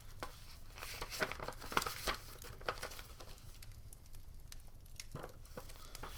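Paper receipts and bills rustle and crinkle as they are handled. Faint, irregular crackles and soft tearing-like scrapes come in small bursts, with no talking.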